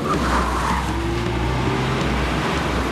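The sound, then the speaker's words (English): A black cab drives under a railway arch with a coupe following close behind, a continuous, steady engine drone with a low humming whine and road rumble, loud and unbroken throughout. “The cab drives under a railway arch, with a coupe a short distance behind.”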